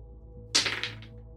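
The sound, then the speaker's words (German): Dice clatter across a table for an investigation check in a tabletop role-playing game: one sharp rattling burst, then a few quick bounces that fade within half a second. “Gib mir mal auch dafür einen Nachforschenwurf.”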